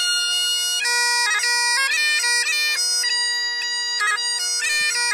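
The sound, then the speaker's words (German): A bagpipe plays Scotland the Brave: a steady drone runs beneath a bright, reedy melody with quick ornamental note changes. It is loud and continuous throughout, with no pause. “Aber wir können mal ganz kurz reinhören, wie überhaupt ein Dudelsack klingt.”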